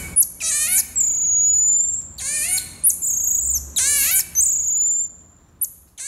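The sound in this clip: High whistled calls of small monkeys living in family groups, signalling to each other with bird-like chirps. A few sharp descending trills alternate with longer steady whistles in an uneven series, with no voices.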